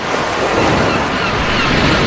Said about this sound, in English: Most of the time, La Playa sounds like this.